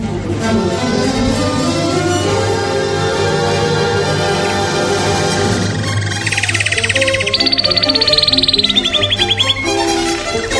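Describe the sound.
A bird trill serves as a radio segment jingle, entering partway through a music bed as a bright, rapid run of high chirps that continues loudly to the end.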